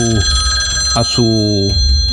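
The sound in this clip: A telephone rings with an incoming call, a steady electronic tone that runs throughout while a voice speaks over it in short phrases.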